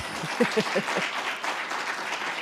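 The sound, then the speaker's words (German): Audience applause at a live event, the T1 Day: a steady, loud wash of many hands clapping that holds for the whole clip. “Vielleicht mal einen Applaus von euch für euch selber.”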